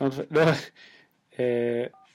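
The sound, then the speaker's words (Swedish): Electronic telephone tones from an incoming call: steady, buzzy tone bursts, then a brief higher beep at the end, with voices speaking at the start. “Jaha, nu har Martin försökt ringa oss här.”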